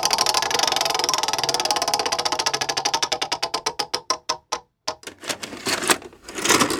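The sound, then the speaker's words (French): A video cassette goes into a VCR with a fast mechanical rattle of clicks that grows slower and more widely spaced, stops briefly, then gives way to a motor whir and a few louder clunks. “Une cassette vidéo qu'on insère ou qu'on éjecte. Ouais, là en l'occurrence, on l'insère, cette cassette.”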